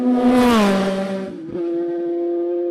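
A racing motorcycle engine passes during a race. Its loud, high buzzing whine drops in pitch as it goes by, then settles into a steadier, lower drone.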